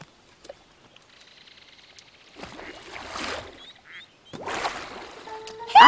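A duck quacking in a Kurdish-dubbed animated cartoon, with a few raspy, noisy quack bursts over a faint background bed of sound.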